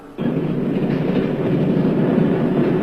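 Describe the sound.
A passenger train runs on rails with a dense, continuous rumble and rattle. The sound begins abruptly after a moment of near quiet, then holds loud and steady throughout with no voices.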